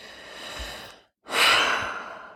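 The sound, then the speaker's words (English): A deep breath taken in and let out, a soft airy inhale followed by a brief silence and a louder, fuller exhale that fades away gradually. “that was like taking a deep breath in and a deep breath out. I don't know if you could hear that on the mic.”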